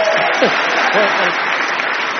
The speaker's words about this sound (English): He wrote this song. And he needs a round of applause.